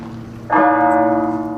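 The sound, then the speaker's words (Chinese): A bell struck once at an archery competition venue, a harsh, bright clang that sets off a sustained metallic ringing. “今天现场的噪音还是比较多的啊，像这种比较刺耳的敲钟的声音，还是会对选手有一定的影响。”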